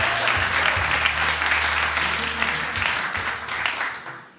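Studio audience applause as a quiz contestant walks on, a full, even patter of many clapping hands that tapers off gradually toward the end.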